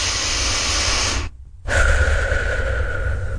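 A deep breath of fresh air out in nature: a long, loud breathy rush, a short silent pause, then a second long airy breath carrying a faint whistling edge.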